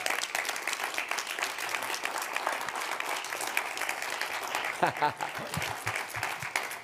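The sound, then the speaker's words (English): An audience applauds to welcome a guest, a sustained patter of many hands clapping at a fairly even level, with a voice briefly audible over it near the end. “Welcome, let's give him a big hand.”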